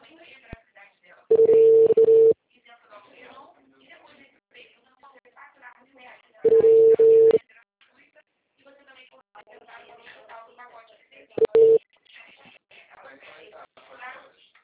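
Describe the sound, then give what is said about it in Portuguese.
Telephone tone after a dropped call: three steady, mid-pitched beeps with the third noticeably shorter, separated by several seconds of quieter talk in the background. “Alexandre aqui, ligação caiu. Tá me ouvindo?”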